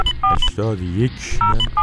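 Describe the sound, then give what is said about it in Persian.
Telephone keypad tones as a phone number is dialed: several short, bright two-pitch beeps, with a brief voiced sound between them. “بله، بنده الان در حال شماره گیری هستم.”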